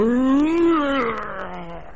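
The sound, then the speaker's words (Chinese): A tiger roars after being struck by a crossbow bolt: one long, loud, tonal roar that lifts slightly in pitch, then sinks and fades into a lower drawn-out growl. “这是虎啸。”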